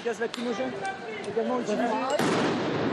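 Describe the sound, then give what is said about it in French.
Tear gas is fired during a police charge on student protesters demonstrating against a pension reform: a few sharp pops sound among voices, then a sudden burst of broad hissing noise. “Charge. Tir de gaz lacrymogène.”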